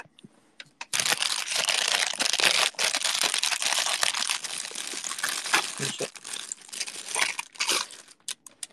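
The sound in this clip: Crinkling plastic packaging around a hojicha (roasted green tea) bagel, a loud, continuous rustle dense with sharp crackles that runs for several seconds.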